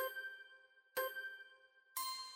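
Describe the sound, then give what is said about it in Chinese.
A notification bell dings three times, about a second apart. Each bright, ringing chime lingers and overlaps the next, at a soft level. “订阅好夜的频道，打开右下角的小铃铛，才不会错过好夜的任何一支影片。”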